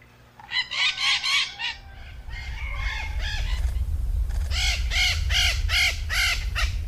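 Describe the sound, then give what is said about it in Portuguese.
A noisy flock of maritaca parakeets calling, with bursts of harsh, raspy, repeated screeches that overlap in a loud chorus over a low background rumble. “E aí, você já sabe de quem é o canto? Quem disse maritacas acertou.”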